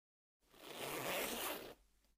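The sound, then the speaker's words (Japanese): A skirt zipper is pulled open in one continuous rasping stroke lasting over a second. The sound is bright and fairly loud, swells at its middle and then cuts off cleanly, with no voices. “続いて、スカートのファスナーを開きます。”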